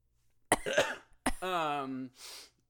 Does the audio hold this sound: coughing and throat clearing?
yes

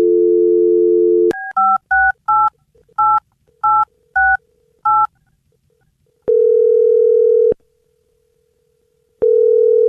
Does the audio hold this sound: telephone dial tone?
yes

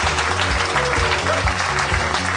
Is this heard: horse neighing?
no

